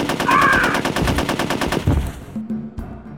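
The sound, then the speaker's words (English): Machine gun fire in an ambush: a fast, evenly spaced burst of rapid shots lasts about two seconds, then breaks off into a few scattered, quieter noises. “I heard shooting. What happened?”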